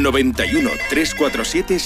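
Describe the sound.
A telephone rings on a radio phone-in line, its steady high tone continuing under a voice that talks over it for the whole clip.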